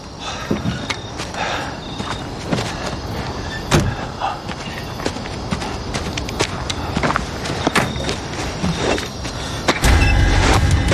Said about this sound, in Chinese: 咱们赶紧撤吧。 你去开车。